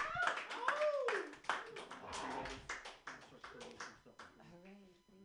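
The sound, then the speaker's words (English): Audience clapping for a comedian at the end of his set at a comedy show. The applause is lively and fairly brief, with voices calling out and talking over it before it thins out. “Put your hands together right now for Mark Neuer.”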